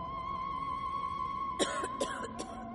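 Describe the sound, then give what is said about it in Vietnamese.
Sudden, hoarse coughing erupts in a rural ghost story: three short, harsh coughs in quick succession, faint over a steady droning background tone. “Có tiếng ho sặc sụa bất thình lình vang lên, làm cho anh giật bắn cả người.”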